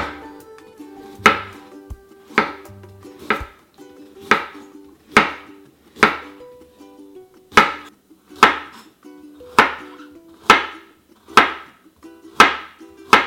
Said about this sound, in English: I'm just gonna slice the carrot into really thin pieces, thin round pieces.